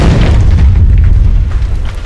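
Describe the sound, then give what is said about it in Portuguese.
A grenade explodes in a video game as one loud, deep boom that rumbles heavily for about two seconds, with no voices. “Vou jogar mais uma granada.”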